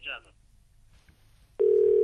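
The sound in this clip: A telephone dial tone after a caller's line cuts off during a call-in: a snippet of voice at the start, near-silence, then a steady, unwavering tone that holds loudly to the end.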